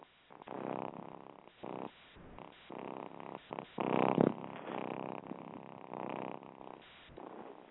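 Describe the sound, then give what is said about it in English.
Soft purring from a cat, a quiet low rumble that comes in steady, rhythmic bursts with short gaps between them, one stretch slightly louder near the middle, with no voices over it. “That is the cat purring. I don't know if you can actually hear it, and I'm sure Bill will tell me in a minute if you can actually hear it.”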